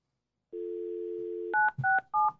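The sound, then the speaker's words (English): A steady telephone dial tone sounds for about a second, then a few short, clear keypad tones follow in quick succession as a caller dials into a meeting. “He's going to dial in. She's going to dial in. So just give us a second to get the fourth commissioner.”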